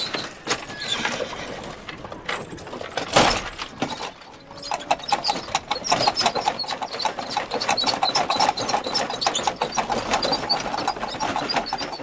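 Clip-clop of horse hooves pulling a fiacre, a horse-drawn cab carrying passengers through Paris, with many steady, even hoof beats that grow clearer and more regular in the second half.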